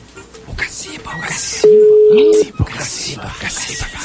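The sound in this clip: A ringback tone sounds on an unanswered telephone call: one steady, mid-pitched tone lasting under a second, heard under people talking.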